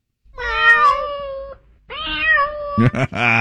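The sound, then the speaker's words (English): A cat meows twice, with two long, drawn-out harmonic calls that waver in pitch. Both are loud and clear, and a short, busier burst of sound follows at the end. “Well, hello, kitty.”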